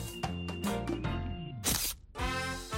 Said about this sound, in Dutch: Snel nog een foto.